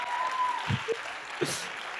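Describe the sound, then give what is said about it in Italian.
Applause from an audience inside a church in Modugno: a dense, steady patter of many hands throughout, with a faint tone and a few low thumps mixed in. “Fosse stata a Firenze o Milano, applaudiva, ma noi applaudiamo, va bene?”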